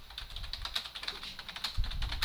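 Rapid typing on a computer keyboard: many sharp, crisp key clicks in an uneven, continuous run, with a few heavier strokes toward the end.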